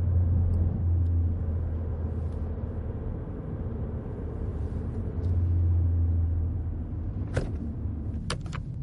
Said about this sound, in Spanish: Jaime va en coche y aparca en la calle